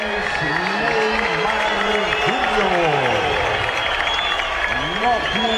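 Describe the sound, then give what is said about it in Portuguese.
Timid, scattered applause and general crowd noise at a football stadium during Santos versus Macará in the Sul-Americana round of sixteen, a fairly even low murmur of clapping that runs under continuous talk. “Aplausos tímidos.”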